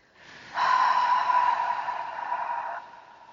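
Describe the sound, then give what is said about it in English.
One big clearing breath is drawn as a loud, airy rush of air lasting about two seconds. It rises abruptly from a soft start and then cuts off, heard alone without talk. “go ahead and just take some big clearing breaths as well.”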